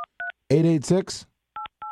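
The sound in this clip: Touch-tone telephone dialing: four short, steady two-note beeps, two at the start and two at the end, with a person talking briefly between them.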